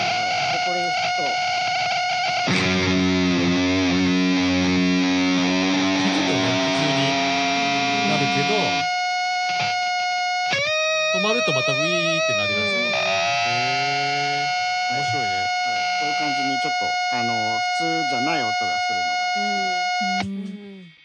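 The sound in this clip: An oscillating fuzz pedal drones on its own with no guitar played: loud, sustained whining tones rich in overtones, whose pitch jumps abruptly several times before the sound cuts off at the end.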